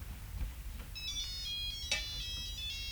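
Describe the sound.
A telephone rings with a quiet electronic ringtone of repeating bright, clipped tones over low background noise. No one speaks.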